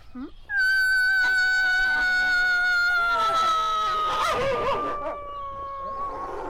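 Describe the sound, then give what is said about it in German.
Grey wolves and arctic wolves howl together in a long, loud chorus: one sustained howl slides slowly downward in pitch while more howls join midway, overlapping into a wavering, layered wail that keeps going to the end. “Und ich stehe da mit offenem Mund, während die Grauwölfe vor mir und die Polarwölfe hinter mir mit einsteigen.”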